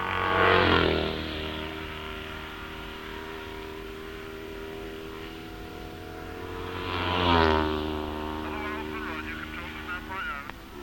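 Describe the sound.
A Vincent motorcycle with sidecar and passenger roars past during a sidecar competition, its engine note rising then dropping in pitch; a second machine passes later, with a commentator talking throughout.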